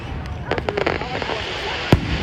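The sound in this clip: Independence Day fireworks go off in a quick cluster of sharp pops and crackles, then one louder bang near the end, over steady background noise with low voices.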